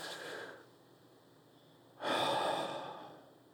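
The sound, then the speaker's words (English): A person takes a deep breath: a soft rush of air, then after a pause a louder, longer breath that slowly fades. Breathy and fairly quiet, with no talking. “Let's just take a deep breath right now.”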